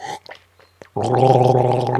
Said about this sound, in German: Ein schöner Weißwein jedenfalls. Und der Onkel wird mal einen Schluck trinken.